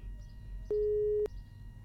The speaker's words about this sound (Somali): Dhegeystaha qadka telefoonka ayaa ka go'ay